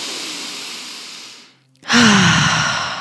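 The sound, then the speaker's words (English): A deep breath, drawn in through the nose and let out through the mouth during a breathwork exercise: a long soft breathy rush, a brief near-silent pause, then a louder sighing breath carrying a faint voiced tone. “So we're just going to take some deep, continual, conscious breaths. That's in through the nose and out through the mouth.”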